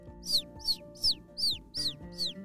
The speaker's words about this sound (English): It's a bird. It's like she's trying to come in.